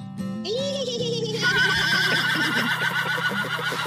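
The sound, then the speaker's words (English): A horse whinnies as a sound effect, a loud, high neigh that rises and then wavers and trembles for several seconds over a steady low background. “All right, let's do some Daily Whinnies. From the podcast to the barn. You didn't hit the Daily Whinnies. I pressed the wrong one. Oh, well, here we go.”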